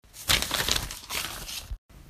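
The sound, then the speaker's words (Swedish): Rustling and crinkling as someone reaches into a bag and pulls out papers, a dense run of scratchy crumpling noise that stops abruptly, followed by a softer rustle. “Jag sträcker mig ner för att hämta väskan och hämta mina papper där jag har mina frågor.”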